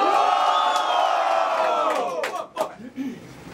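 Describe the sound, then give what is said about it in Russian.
A crowd at a live rap show cheers and shouts in a loud, sustained roar of many voices that fades into scattered whoops and short calls. “Начинайте так все, дайте шума!”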